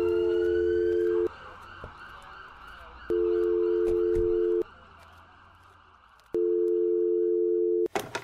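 A telephone ringing tone sounds while someone calls: three long, steady buzzing tones separated by even pauses over a faint busy background, ending in a sharp click.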